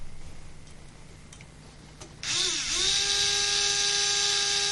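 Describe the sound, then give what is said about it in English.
A power driver screwing a bolt in starts up partway through with a high, buzzing whine that rises in pitch as it spins up, then holds a loud, steady tone to the end. “And then we screw it in. So I'll just do that now.”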